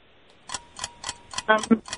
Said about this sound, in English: Oh, there's the timer. Sorry about that.